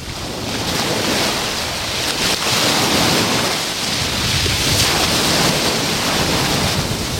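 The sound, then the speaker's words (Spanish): Sea waves breaking on a sandy beach under a westerly wind make a continuous, loud, hissing roar of surf and gusts that swells and eases gently, with no voices. “donde sopla viento de poniente y donde el mar suena así. Hoy tenemos olas y esto es lo que escuchamos los que nos encontramos sobre la arena”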